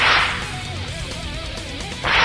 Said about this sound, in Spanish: Ay, con látigo y todo, que los llevaba.